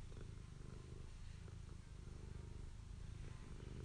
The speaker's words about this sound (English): If you hear purring, that's Maggie Moo.